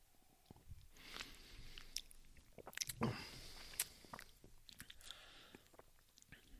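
Faint biting and chewing of a vine-ripened fruit picked in early August, heard as a few soft crunches followed by moist, irregular chewing.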